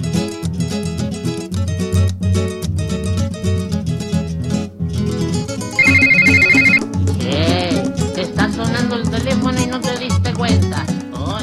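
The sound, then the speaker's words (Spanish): A telephone rings once midway as a steady electronic tone lasting about a second, set over continuous loud music. “y está sonando el teléfono y tenemos otra comunicación telefónica”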